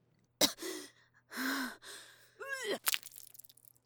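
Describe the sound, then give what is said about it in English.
A sharp gasp of breath taken on request just before a jab, then a few breathy, partly voiced exhalations and a higher squeaky voiced sound, all fairly quiet and heard alone over a faint low hum. “Okay, just take a deep breath for me.”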